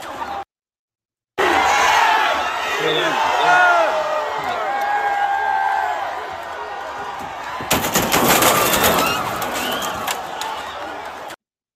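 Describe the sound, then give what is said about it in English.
Philadelphia Eagles football fans roar and yell as a dense, loud, sustained crowd. A cluster of sharp cracks and bangs breaks through near the end before the noise cuts off. “Here's the Philadelphia Eagle fans. If you haven't seen them.”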